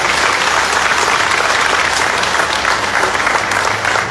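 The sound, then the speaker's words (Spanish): Loud, steady applause from an assembly honoring its members rolls on without pause, a thick even patter of many hands throughout. “Y quiero pedir un fuerte aplauso para el hermano Richard Rojas, Michael Rojas, un fuerte aplauso.”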